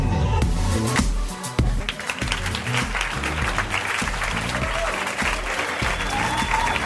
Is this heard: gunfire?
no